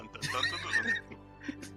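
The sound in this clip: A horse whinny for a summoned riding mount in a fantasy role-playing game: one short, shrill neigh with a quavering pitch, followed by a couple of faint brief sounds.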